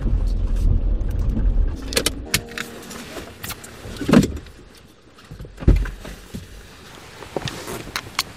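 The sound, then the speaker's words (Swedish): A car on a small, rain-soaked forest road near Alingsås, steering around potholes: a low engine rumble is joined by scattered knocks and rattles, with the sound easing toward the end. “Jag kör på en liten skogsväg utanför Alingsås.”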